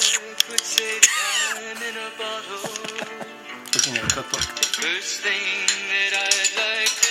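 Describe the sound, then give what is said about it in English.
A spoon clinks again and again while cookies are made with flour, giving many sharp metallic taps at an uneven rhythm under voices. “It's a spoon.”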